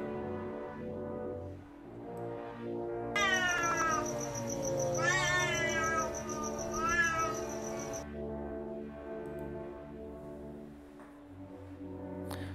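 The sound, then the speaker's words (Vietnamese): A cat leaps out of bushes in broad daylight and gives eerie, drawn-out yowls. A few wavering cries rise and fall over a continuous low tonal background. “từ trong bụi rậm phóng ra một con mèo. Nó kêu lên một tiếng nghe rùng rợn, mặc dù là đang giữa ban ngày.”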